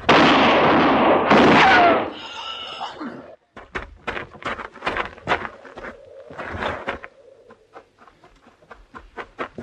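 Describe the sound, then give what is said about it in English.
A loud gunshot in a tense western-style drama bursts out at the start with a harsh, noisy blast, followed by many quieter sharp knocks and clicks. “You shot him. Yes, ma'am. He's dead.”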